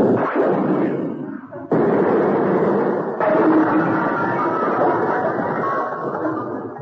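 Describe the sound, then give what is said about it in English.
A naval ship's guns fire a ceremonial salute, heavy booming blasts with sudden onsets that blend into a continuous, rolling low rumble. “Heavens to Betsy, what the hell was that? I think Troutbridge is firing the salute, sir.”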